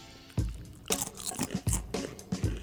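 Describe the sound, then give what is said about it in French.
Crunching on ordinary, very crispy potato chips: several loud, crackly bites and chews come in irregular bursts, separated by quiet pauses, with no talking. “C'est des chips ordinaires, il n'y a rien de vraiment original ouais, là-dedans.”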